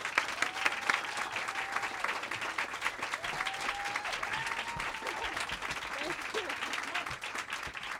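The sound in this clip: An audience applauds to welcome a speaker onto the stage. The clapping is dense and continuous at a moderate, even level from start to finish.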